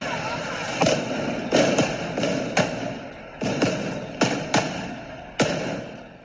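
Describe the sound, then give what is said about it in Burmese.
Gunshots from police firing at an incident scene: many sharp, loud cracks in an irregular series, some in quick pairs, over a constant background rumble. “တနက်ပစ်ခတ်တန်း10ချက်ထက်မနည်းကို VOA ကလက်ခံရရှိတဲ့ဗီဒီယိုထဲမှာလည်းကြားခဲ့ရပါတယ်။”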